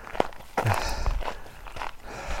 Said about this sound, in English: I think I'll continue walking here so I won't scare the horse.